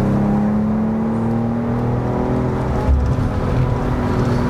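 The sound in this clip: BMW car engine accelerating out of a bend, giving a loud, steady, low drone with strong harmonic tones throughout.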